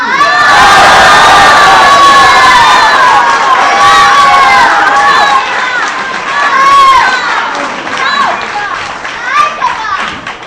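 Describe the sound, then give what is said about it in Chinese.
An audience cheering, whooping and heckling at a live comedy show: a loud, sustained mass of shouts with high calls throughout, easing slightly toward the end. “您这个起哄啊”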